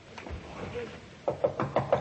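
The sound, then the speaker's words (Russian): Knocking on a door: five firm raps in quick, even succession near the end, after a quieter stretch. “Людмила Герасимовна, можно войти? Не отвечает. Ну, постучи хорошенько.”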